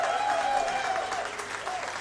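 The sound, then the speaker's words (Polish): Audience applause at a live concert as two vocalists are welcomed onto the stage; a dense, steady wash of clapping runs unbroken throughout at an even loudness. “Witamy, prosimy o brawa.”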